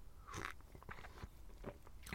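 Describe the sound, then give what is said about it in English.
Biting into a big Belgian bun topped with a glacé cherry gives a few soft, crunchy bites and chewing sounds, quiet and spaced out, with no talking over them. “I've got a big old Belgian bun. Oh, it's stuck to the wrapper. And there he is. There's the little glacé cherry, which I'll eat last.”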